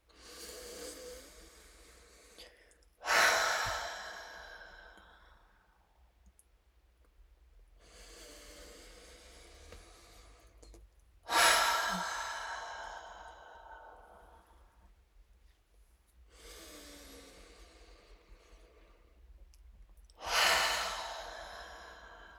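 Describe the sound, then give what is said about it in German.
Three slow, deep breaths, each a long soft hiss of air drawn in through the nose and then a louder, sighing exhale out through the mouth, calm and evenly spaced during a guided relaxation with no talk over them. “Und dann nimm hier drei tiefe Atemzüge durch die Nase ein und durch den Mund aus.”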